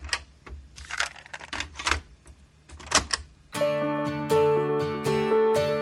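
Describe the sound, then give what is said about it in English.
A cassette tape being pushed into a player makes a run of mechanical clicks and clacks at an irregular pace, then music starts up loudly and continues. “So let's stick that cassette in and get going.”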